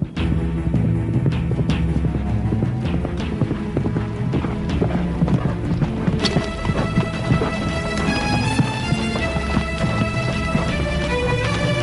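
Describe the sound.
A saddled horse gallops with a rapid, steady clip-clop of hooves that continues throughout, loud and dense, with music playing alongside.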